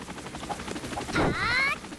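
A fighter helicopter enemy in a video game combat scene makes a brief noisy blast, followed by a whining tonal sound lasting about half a second, over a steady pulsing background of game audio.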